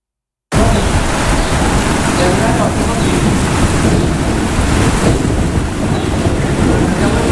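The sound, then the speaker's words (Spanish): Heavy thunderstorm noise during a spell of intense lightning over Galicia. A dense, continuous roar of rain and rumbling starts abruptly after a moment of silence and stays loud and steady throughout. “Máis de 3.300 rayos caeron sobre Galicia nas últimas horas e segue a inestabilidade atmosférica este luns.”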